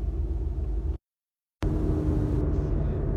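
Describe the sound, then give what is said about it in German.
A car drives home at night around 2 a.m., its steady low road rumble broken by a brief stretch of silence midway before resuming. “Ich fahre gerade nach Hause.”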